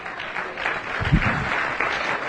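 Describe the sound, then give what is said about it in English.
A church audience claps their hands, a continuous, even wash of many claps with one heavier low thump partway through. “Well, let's clap our hands unto the Lord one more time.”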